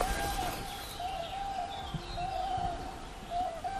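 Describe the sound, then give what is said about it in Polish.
Cranes call over flooded wetland meadows with shallow water and old willows, giving a series of drawn-out, trumpeting notes repeated at irregular intervals, moderately loud above a soft background hiss. “To dobre miejsce na to, żeby nagrywać żurawie. O, słyszymy żurawie.”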